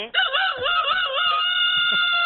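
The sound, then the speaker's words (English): Rooster crowing: one long, loud crow that wavers in pitch at the start, then holds a steady, bright harmonic tone to the end, with a few faint low thumps beneath. “Was that your rooster?”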